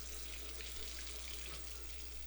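Water runs steadily from a tap in an even, continuous splashing hiss that holds at one level throughout, with no talk.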